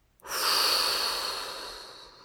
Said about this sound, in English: Big inhale through your nose and blow.